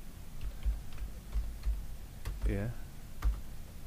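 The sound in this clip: Keystrokes on a computer keyboard as a password is typed: scattered soft, irregular clicks at a low level, with a brief voice between them.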